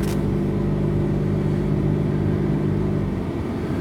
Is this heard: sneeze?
no